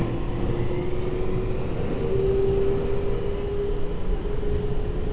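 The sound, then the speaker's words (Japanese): A Tokyo Metro subway train runs along the Fukutoshin Line with a steady, dense low rumble that never lets up, a thin sustained whine riding on top through the middle; no voices. “東京メトロ副都心線をご利用いただきましてありがとうございます。この電車は池袋、新宿三丁目、渋谷方面、東急東横線、”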